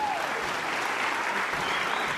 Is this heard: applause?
yes